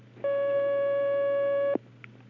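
A steady electronic telephone line tone as an incoming call is connected: one sustained pitched beep of about a second and a half over a low hum, ending in a click before quiet returns.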